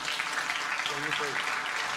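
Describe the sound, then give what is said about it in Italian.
Audience applause, a steady, even wash of clapping that runs the whole two seconds, with a brief voice surfacing in the middle. “E allora facciamo un applauso anche”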